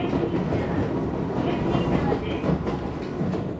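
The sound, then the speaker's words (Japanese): A 700-series electric train runs on the rails heading west from Akagi, giving a steady, continuous rumble with rhythmic clickety-clack from the wheels throughout. “赤城を出た列車はさらに西へと進みます。”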